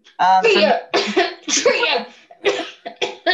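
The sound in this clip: A person clears their throat and coughs in the middle of a conversation, giving a few rough, voiced bursts of varying strength.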